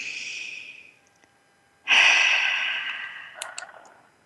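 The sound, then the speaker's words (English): A slow, deep breath during a guided relaxation exercise. A soft airy breath fades out, then after a short hush a louder, fuller breath swells in and trails away gradually, with no talking. “Put one hand on your heart, one hand on your head, and take another beautiful deep breath together.”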